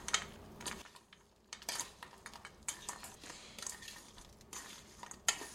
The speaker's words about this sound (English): Now I'm gonna stir those up.